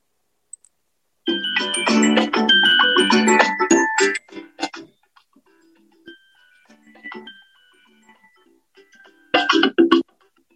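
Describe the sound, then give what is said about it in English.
A prize wheel spins for a gift card giveaway: a bright, tinkling electronic jingle with rapid ticking runs for about three seconds. Sparse, slowing ticks follow, then a short burst of chimes at the end. No one speaks. “And let's spin the wheel.”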